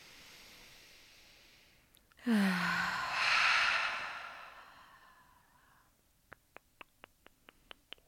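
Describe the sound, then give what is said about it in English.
A deep breath in during guided meditation: one long, loud, airy inhalation that swells and fades over several seconds. A rapid series of short, sharp ticks follows. “Deep breath in.”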